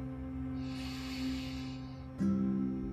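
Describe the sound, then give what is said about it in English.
A long, slow inhale during coherent breathing practice makes a soft, airy hiss that swells and fades over roughly two seconds, with a steady low hum underneath. “So whenever you're ready, you can come into an extended inhale”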